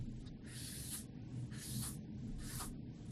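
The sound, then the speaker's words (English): A pen or marker scratches out a drawing of an axe head bound with laces, a Roman fasces, in three dry, hissy strokes of about half a second each over a steady low hum. “for those of you who couldn't see my pen, I'll draw this again.”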